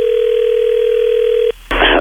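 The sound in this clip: A telephone dial tone sounds while a call is being placed, a steady unbroken tone for about one and a half seconds. A click cuts it off, followed by a short burst of harsher rushing noise.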